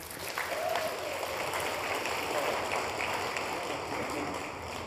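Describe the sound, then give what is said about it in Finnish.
Audience applause for the house band at a Christian media mission event, a steady, even wash of clapping that holds at moderate loudness throughout with no voices over it. “Ihan mahtavaa, House-bändi. Vielä kerran aplodit heille.”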